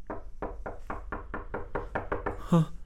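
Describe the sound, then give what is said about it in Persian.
Knocking on a door: a long run of evenly spaced, hollow knocks at a steady pace, ending in a heavier thud. “دروازه را میکوبن. بیا داخل، دروازه باز است.”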